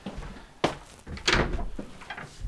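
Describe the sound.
A squeaky front door is opened for a parcel delivery, producing two loud thuds and several fainter clunks and scrapes in between.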